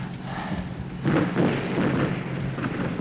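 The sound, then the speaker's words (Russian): An artillery shell explodes beside a cannon in a wartime battle. A deep blast hits about a third of the way in and leaves a heavy rumble over a low background roar. “Снаряд! Анифанов, снаряд! Снаряд падает рядом с пушкой артиллерии.”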